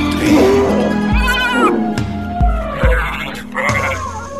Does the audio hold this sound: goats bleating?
yes